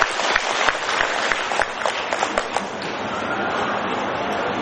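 A Buddhist audience applauds in congratulation at a school's 25th-anniversary gathering in Ho Chi Minh City. Many hands clap in a full, steady burst, with some louder claps early on, sustained for several seconds.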